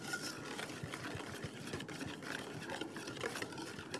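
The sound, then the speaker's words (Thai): Stirring a mixture by hand until smooth, a faint, continuous scraping and swishing with small irregular knocks and no talk. “จะต้องกวนให้เข้าเป็นเนื้อเดียวกันแล้วค่อยเติมลงไปอีกนะคะ”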